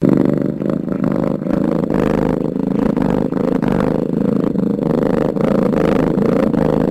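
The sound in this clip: An animal purrs with a low, deep vibration of the vocal cords. The loud, continuous rumble pulses in a steady, repetitive rhythm and runs unbroken throughout without any voices.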